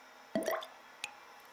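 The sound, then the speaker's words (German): A drop of concentrated acid falling onto a blood sample gives a soft, wet plop, followed about half a second later by a smaller second drip, both faint against a quiet background. “Ich gebe einen Tropfen konzentrierter Säure auf den roten Perlpunkt.”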